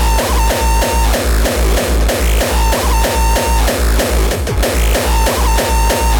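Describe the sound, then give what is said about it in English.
A heavily distorted drum machine at the Hard Island Croatia 2018 event pounds out a loud, fast, steady run of many saturated kicks, with a gritty sustained tone riding over the beat throughout. “The amount of distortionation.”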